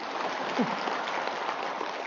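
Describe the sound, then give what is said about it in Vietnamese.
Applause from an audience at a talk, a continuous, even patter of many hands at moderate loudness, with no clear peaks or breaks. “Một tràng pháo tay đi.”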